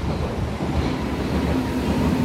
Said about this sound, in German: Es rauscht jetzt gewaltig, dass es genau das, was passiert, wenn man eben in den Berliner Untergrund absteigt.